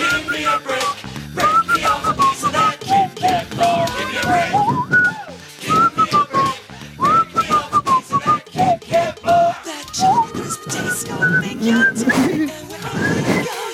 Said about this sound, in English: Can I do it with a whistle?